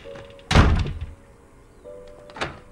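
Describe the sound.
A door being shut: one heavy thunk, then a fainter knock near the end, against a quiet background.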